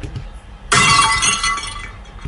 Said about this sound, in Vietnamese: Chén canh bỗng rơi ra từ giữa ngón tay hai người chạm nhau, canh gà đổ tung tóe đầy đất.